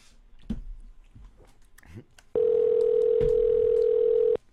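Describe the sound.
A steady telephone tone on a call holds unbroken at one pitch for about two seconds, fairly loud, after a stretch of faint talk and mouth noises.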